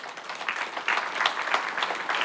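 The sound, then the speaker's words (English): A church audience claps for the volunteer team that sets up every weekend. The applause is a moderate, uneven patter of many hand claps over about two seconds. “They're clapping because they set this thing up every day, every Sunday, every weekend.”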